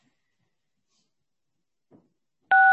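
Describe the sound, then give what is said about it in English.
A phone conference system gives a single short electronic dual-tone beep after the ask-to-unmute button is pressed. A faint click comes just before it, and the rest is near silence. “Okay, caller, I am pushing the ask to unmute button.”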